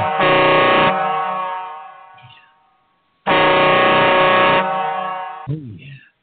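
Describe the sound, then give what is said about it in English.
Two long, loud blasts of a truck air horn, each a brassy, buzzing tone that holds steady and then fades out, with a short gap of quiet between them. “I've been wanting to play my air horn every time we start, and I didn't do it.”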